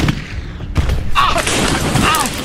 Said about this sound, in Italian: D'accordo, ora gli sparo, prendo la mira. Al mio tre, uno, due, tre.